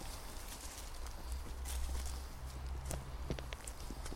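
Footsteps as people walk into a forest where flint lies everywhere on the ground. A quiet run of soft crunching steps sits over a steady, hissy background.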